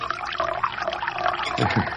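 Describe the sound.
Hot, strong British tea is poured into a cup, making a continuous liquid trickling and splashing, with a couple of heavier gurgling splashes near the end.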